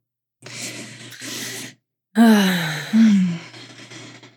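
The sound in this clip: Deep breaths taken together: two long inhales, the second following a brief pause, then two loud, breathy exhales that turn into voiced, sighing groans, the second starting just as the first tails off.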